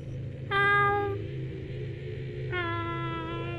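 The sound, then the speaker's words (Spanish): A cat meows twice at night near a guard booth, two clear, high-pitched cries separated by a pause over a low, steady background hum. “Cuando estaban en la caseta se escuchó de nueva cuenta al gato”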